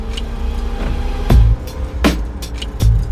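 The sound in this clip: A car turns onto a gravel road. A steady low rumble is broken by a few sharp, crackling bursts of stones under the wheels.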